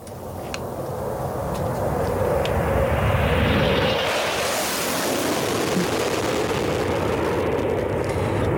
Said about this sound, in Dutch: Is het geluid van je jeugd? Een straaljager? Waarom een straaljager?